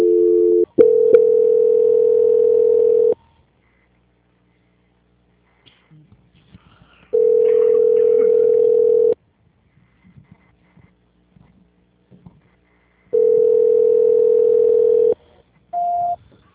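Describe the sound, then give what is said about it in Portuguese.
Telephone tones while a call is transferred: three steady, mid-pitched tones of about two seconds each, separated by roughly four seconds of near silence with faint clicks, then a short higher beep. “Eu vou transferir a senhora agora lá direto para o gerente, tá? Vamos ver se agora não cai”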